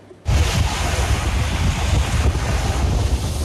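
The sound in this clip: Black Sea waves at a harbour with a wave-energy plant: a loud, continuous rushing roar of surf, heavily buffeted by wind on the microphone, steady throughout after a sudden start.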